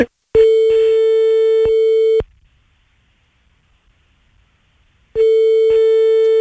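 A telephone line tone plays while a number is being called: two long, steady, loud beeps of about two seconds each, separated by a silent gap of roughly three seconds.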